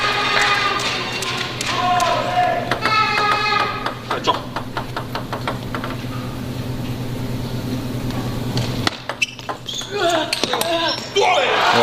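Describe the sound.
Table tennis ball being served and struck during a match at 10-8 with the server holding two game points: a quick series of sharp, light taps and clicks under steady commentary talk and background noise.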